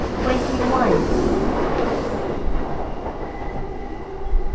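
A Yamanote line train running through Tokyo near Ebisu station, a loud, steady rail rumble and hiss that carries evenly throughout.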